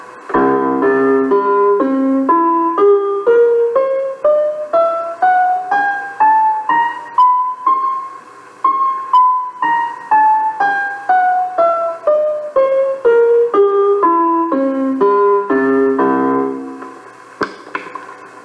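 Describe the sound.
A musical scale is played on a tuning laid out along a completely straight line, with many evenly paced harmonic notes. Each note strikes and decays, climbing steadily in pitch, then descending back down.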